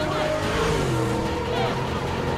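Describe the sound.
Cars power-slide onto a boulevard and weave through traffic while chasing a streetcar, giving off a continuous engine roar whose pitch shifts and dips.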